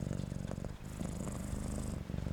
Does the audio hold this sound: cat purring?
yes

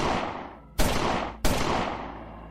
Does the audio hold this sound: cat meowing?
no

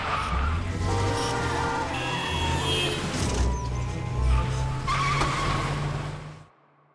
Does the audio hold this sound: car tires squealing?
yes

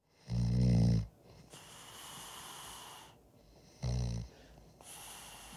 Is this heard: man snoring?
yes

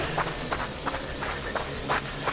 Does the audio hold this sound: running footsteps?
yes

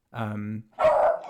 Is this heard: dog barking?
yes

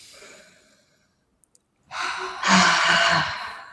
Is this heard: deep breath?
yes

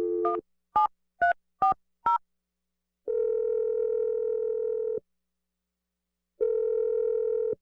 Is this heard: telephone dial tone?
yes

